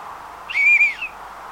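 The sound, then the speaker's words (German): A person whistles to call for help: one clear, high, sustained note about half a second long that holds steady, bends slightly and fades at the end, over a low constant hiss. “Ist hier niemand? Vielleicht hört mich jemand, wenn ich pfeife.”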